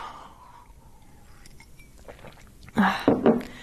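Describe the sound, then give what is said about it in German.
A sip of a drink is taken in dry air. Faint breathy sounds give way to two short, louder slurping and swallowing bursts near the end. “Ich trinke mal einen Schluck.”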